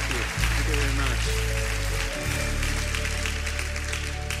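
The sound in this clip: A church audience applauds to welcome a speaker during a morning service, steady clapping running throughout over sustained low instrumental chords that shift midway.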